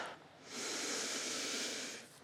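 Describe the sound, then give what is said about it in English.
A person draws one long, deep breath in during a prayer gathering. The steady, airy rush rises quickly, holds for about a second and a half and then fades, with nothing else heard. “I wonder if we could just take a minute to take a deep breath”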